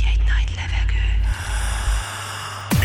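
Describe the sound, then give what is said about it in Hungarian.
A deep breath drawn in: an airy inhale over a steady low hum, followed near the end by a sharp downward swooshing sweep. “Felkészültél. Végy egy nagy levegőt.”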